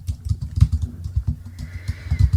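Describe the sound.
Typing an email on a computer keyboard: many soft, thuddy keystrokes tap out an uneven, quick rhythm, with brief pauses between short runs.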